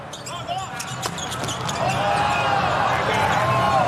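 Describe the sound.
A volleyball serve in a China national team match in Yokohama: a sharp hit against steady arena crowd noise that swells and stays loud afterward.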